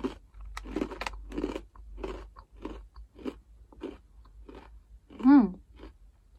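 Someone eats food, making many crisp, rhythmic crunching chews in close succession, with a brief voiced hum near the end.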